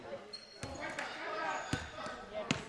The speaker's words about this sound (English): One dribble pickup. Ball's dead.